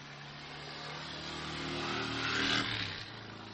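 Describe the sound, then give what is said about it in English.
Motorcycles from a biker gang ride past outside, a deep rumbling engine drone that swells steadily to a loud peak and then quickly fades away. “That's my biker gang that I'm a part of. They just rode by.”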